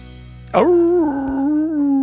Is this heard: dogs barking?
yes